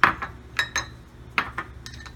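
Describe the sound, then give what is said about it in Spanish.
Spoon and utensil clinks sound while flour is sifted and baking powder is spooned out for biscuits, a handful of sharp, short metallic taps in uneven clusters. “Para hacer los biscuits, tamizamos una taza de harina y vamos a colocar”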